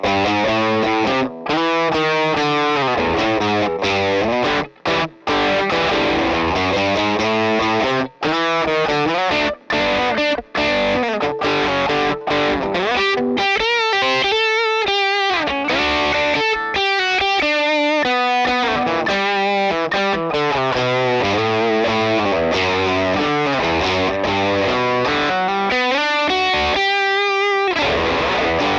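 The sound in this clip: Heavily saturated electric guitar plays a riff through an Analog Man Beano Boost into a Vox AC15 amp, a thick, buzzing tone with chorus-like shimmer that runs continuously for about half a minute, with brief gaps between phrases.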